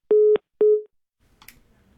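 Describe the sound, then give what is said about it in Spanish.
Busy tone after a phone call is cut off: two steady low beeps of equal pitch, then faint line noise. “como usted puede ver y como usted puede escuchar, se cortó la llamada”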